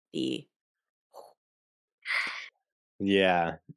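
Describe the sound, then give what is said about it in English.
Darth Vader's first breaths inside his suit at the end of a Star Wars trailer: four short breathy bursts separated by silence, the last one longest and carrying a voiced, groaning tone. “the trailer ends on the very iconic, you know, first breaths of Vader inside the suit.”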